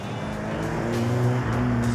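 A classic Ford Escort drives along after a switch from drum to disc brakes, its engine giving a steady, moderately loud hum with a low droning tone throughout.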